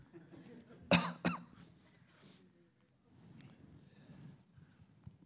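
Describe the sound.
Sharp coughing to clear something stuck in the throat: two loud, abrupt coughs close together, followed by a low, faint murmur of breathing and background rustle.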